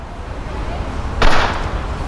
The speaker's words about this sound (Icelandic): Skyndilega skýtur ekkur úr byssu.